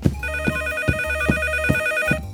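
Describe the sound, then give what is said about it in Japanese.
A telephone rings with a bright, steady ringtone-like pattern of sustained high tones over a regular pulsing beat that repeats several times, with no voices. “おっと、電話だ。誰からだろう。”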